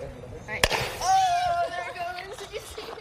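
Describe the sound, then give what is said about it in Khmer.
A single sharp, loud pop from a simple pressure rocket powered by water and an effervescent tablet sealed inside, in a school science demonstration. The burst is brief and is followed by voices. “នេះជាការពិសោធន៍សាមញ្ញត្រាប់តាមការបង្ហោះគ្រាប់រ៉ុកេត ដាក់គ្រាប់ថ្នាំចូលហើយបិទឲ្យជិតពេលទឹកនឹងគ្រាប់ថ្នាំលាយគ្នាវាបង្កើតជាសម្ពាធ”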